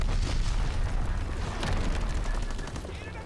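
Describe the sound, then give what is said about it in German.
Artillery explosions and gunfire in a combat video game make a dense, loud, continuous rumble, with a few sharper bursts cutting through the steady roar. “Ich glaube, ich renne da jetzt aber nicht rein. Das wäre jetzt richtig NA-Play, in meine eigene Artillerie zu rennen.”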